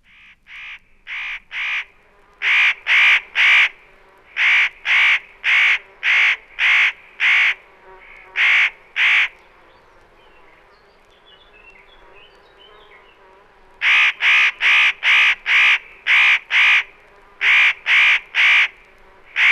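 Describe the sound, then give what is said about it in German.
A common raven gives loud, harsh, deep croaking calls in quick runs of many caws. A quieter pause in the middle separates the bursts. “Nach wie vor gilt der Kolkrabe als vom Aussterben bedroht und ist daher seit Jahren streng geschützt.”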